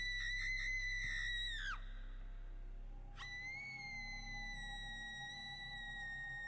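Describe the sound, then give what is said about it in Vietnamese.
A woman screaming outside, rendered as two high, piercing, whistle-like cries. The first ends in a sharp drop in pitch. After a short gap, the second holds steady to the end, faint over a low steady hum. “Cái đó là tiếng hét của một người đàn bà vang lên ở bên ngoài kia.”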